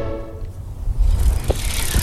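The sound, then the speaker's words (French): A bicycle ridden along the Loire towpath near Savennières gives a low rumble with loose rattling, fairly quiet at first and growing louder and busier halfway through. “Clic-clac pédale entre Bushmen et Savenières sur le chemin de halage de la Loire à vélo.”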